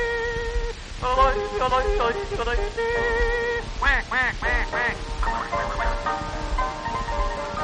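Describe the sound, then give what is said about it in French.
Tyrolean ducks quacking in a loud run of many nasal quacks, some in quick clustered bursts, mixed with sustained voiced tones. “Quoi, quand c'est des canards tyroliens.”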